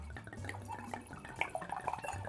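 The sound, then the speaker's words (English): Wine poured from a bottle that turns out unexpectedly fizzy. A quiet trickling gurgle is broken by small drips and light splashes. No talk. “All right, and here comes the pour.”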